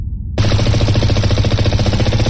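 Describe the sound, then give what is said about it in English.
Automatic rifle fire bursts in suddenly after a short moment of quiet and becomes a loud, sustained, rapid rattle of shots aimed at a charred book. It continues steadily to the end with no voices. “Automatic gunfire ripped into the charred cover of Sanguine Libations.”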